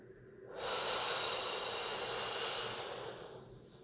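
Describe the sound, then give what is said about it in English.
A single long, deep in-breath: an airy hiss swells in, holds steady for about three seconds, then tapers away. It is heard alone. “And let's take another nice deep breath in.”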